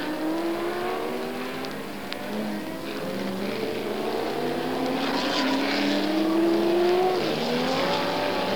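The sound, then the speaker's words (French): Racing cars speed during a motor race that includes Cobra and Alfa Romeo cars. A loud, continuous engine roar carries several whining tones that climb in pitch as the cars pass, with no voices. “Et voilà que la Cobra de Johnson prend l'échappatoire. Une Alfa Romeo est sortie de la route.”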